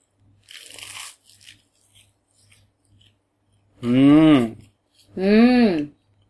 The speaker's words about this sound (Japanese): 美味しそうじゃん。ベジマイトチーズ。いただきまーす。 このチーズトースト、バイキルトかかってんだ。